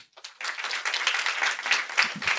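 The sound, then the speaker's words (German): Short, thin applause from a small audience after a brief quiet start, a modest patter of hand claps that stays at a moderate, uneven level to the end. “Hier ist euer Applaus für Stefan und seine alleine in der Sauna gepupst-Frage.”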